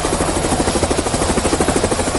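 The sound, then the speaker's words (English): A helicopter ferrying people out of flood-prone areas in Bangula, Nsanje, its rotor beating in a steady, rapid rhythmic thump over a loud, continuous engine roar. “As you can hear in the background, that is the sound of a helicopter, which is ferrying people from the flood-prone areas, and one of them is Bangula here in Nsanje.”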